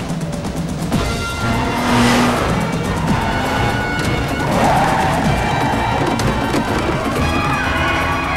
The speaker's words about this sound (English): Then they come back together again as the other beamer attempts to get to Belle's other side to collect the money bag.